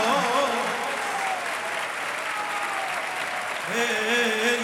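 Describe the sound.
Steady, dense clapping fills the whole stretch as people applaud, with a voice singing or chanting over it at the start and again near the end.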